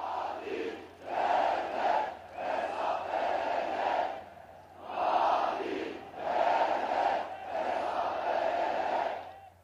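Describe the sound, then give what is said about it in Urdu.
Protesters chanting slogans in the streets of Ankara: a crowd of voices shouting in unison in rhythmic, repeated phrases that rise and fall in waves, with brief dips between chants. “Ankara کے شہری سڑکوں پر نعرے بازی کر رہے ہیں۔”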